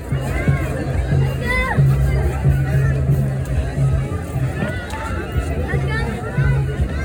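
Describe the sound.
Hundreds of people gather near a lighthouse next to Friendship Park at Playas de Tijuana, where the border meets the sea; a dense, continuous murmur of crowd chatter with overlapping voices talking throughout.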